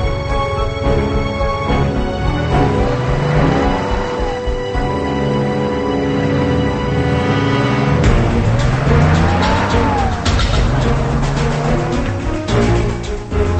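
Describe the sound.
A car engine revs hard as the vehicle drives away. The sound is loud and continuous, with several rising pitch sweeps as it accelerates and no voices.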